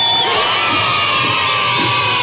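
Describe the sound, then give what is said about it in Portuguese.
Audience applause and cheering for everyone present, a dense, loud wash of clapping and shouting voices that holds steady for about two seconds. “Palmas pra todo mundo!”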